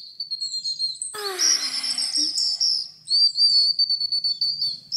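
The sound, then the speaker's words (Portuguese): Small birds chirping in a forest in the morning, with high, thin whistled notes and warbling trills running almost without a break, and a brief burst of busier, lower twittering in the middle. “Na manhã seguinte, quando os passarinhos acordaram, encontraram Branca de Neve adormecida na floresta.”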